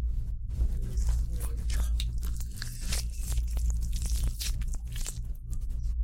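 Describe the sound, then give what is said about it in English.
Wet tearing and squishing as an orange is opened and peeled back at a hotel, with many small crackles and squelches of peel and flesh over a steady low hum. “We finally got to try them. We're currently opening an orange.”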